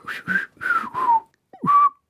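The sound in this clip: Whistling: a short run of clear whistled notes, several gliding downward in pitch, broken by brief pauses, bright and fairly loud with no other sound.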